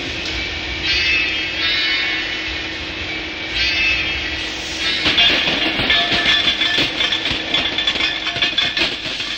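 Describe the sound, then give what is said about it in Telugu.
A steam train engine runs on rails with a loud, steady rumble and hiss, then breaks into rapid, rhythmic clattering in its second half. “గుప్పు గుప్పు money నడిసే engine బండే”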